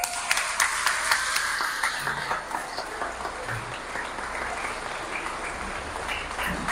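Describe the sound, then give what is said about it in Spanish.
Applause from an audience during a church service, a dense, steady wash of many hands clapping with sharp individual claps poking through, lasting about seven seconds with no voices over it. “Felicidades, un aplauso.”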